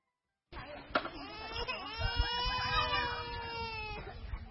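A two-year-old child cries in a tent camp of blue tarpaulins, a long high-pitched wailing sob that breaks in after a brief silence and holds for several seconds before trailing off.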